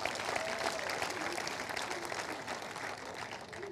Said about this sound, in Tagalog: Come on, palakpakan mo si Lord.